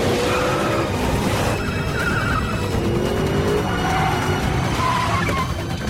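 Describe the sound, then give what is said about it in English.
An Audi swerves off a motorway and zooms up a grass embankment, making a continuous, loud roar of engine and tyre noise with brief squealing tones, steady throughout. “The Audi driver swerves off the motorway and up a grass embankment. Struggling to keep control, he zooms along, then turns and drives the car onto a bridge.”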